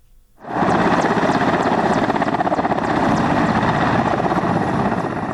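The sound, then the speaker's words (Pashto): A national army military helicopter flies near Lashkar Gah, its sound rising abruptly from near silence into a loud, steady, rapid rotor thudding with engine whine that holds for about five seconds. “په راپور کې اوري چې د یوې الوتکې په غږ پیلېږي”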